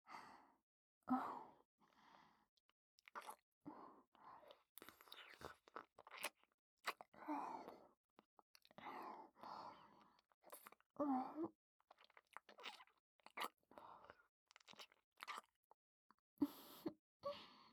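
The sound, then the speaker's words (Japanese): Soft, wet kissing and lip-smacking sounds come in a long, irregular run of many quiet smacks, mixed with breathy sighs. “キスをお望みですか？いいですよ。”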